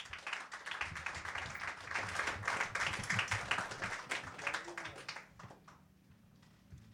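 Audience applause for a poet introduced at an open mic reading: a steady wash of many hands clapping for about five seconds, then fading out to quiet room tone.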